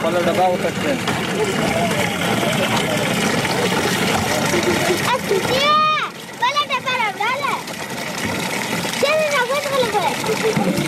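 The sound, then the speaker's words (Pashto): Children filling containers with water from a charity-built water tank in Kandahar, splashing and pouring water under steady chatter and children's voices. “دلته ماشمان د اوبو له هغې ټانکۍ څخه ډبې ډکوي چې په سیمه کې د یوې مرستندوی موسسې لخوا جوړه شوې ده”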